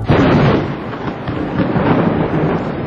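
A loud thunderclap from a storm over a winter pasture breaks into a heavy, broad rumble that rolls on with slight swells in loudness for the whole stretch.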